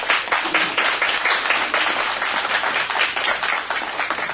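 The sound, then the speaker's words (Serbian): An audience applauds a teacher whose students have just performed at an evening program. Dense, loud, steady clapping continues throughout. “Koristim priliku i da zamolim za jedan aplauz za profesoricu Vesnu Josipović.”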